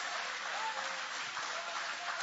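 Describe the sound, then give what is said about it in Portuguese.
Applause from a church audience during a service, a steady, dense wash of clapping that holds at an even level for the whole stretch. “Isso, podem aplaudir. Pode exaltar.”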